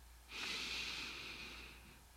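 A single deep inhale: one long, airy breath drawn in, rising quickly and holding as a soft, steady hiss for about two seconds before slowly fading.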